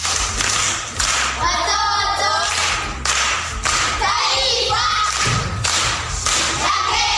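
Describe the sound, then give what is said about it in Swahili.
Clapping for a schoolgirl who has just recited a proverb at a primary school event: heavy, uneven thumping claps over a busy, noisy background. “Makofi kwa shangazi.”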